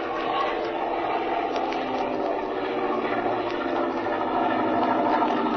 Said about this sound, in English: I'm going to crawl out on the wing and have a closer look. Well, all right. I'll hold the ship steady. That's the idea. Now fly in a straight line at about half throttle.